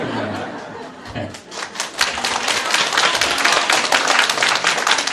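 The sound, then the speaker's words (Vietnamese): Women in an audience at a temple talk clap their hands, sparse and quieter at first, then swelling after about two seconds into dense, sustained applause with some laughter mixed in. “Cái này là các ông không có vỗ tay mà để các bà vỗ tay cho.”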